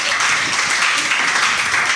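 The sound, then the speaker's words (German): Audience applause at a live recording event, a dense, continuous patter of many hands clapping at once, loud and even with no gaps. “Ja, da kann man ruhig mal klatschen. Bitte, das ist doch schon eine Leistung.”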